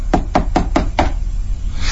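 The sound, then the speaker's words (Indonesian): Knocking on a bedroom door at night: five firm, evenly spaced raps in about a second, followed by quiet background hum. “Ada yang mengetuk pintu kamarku.”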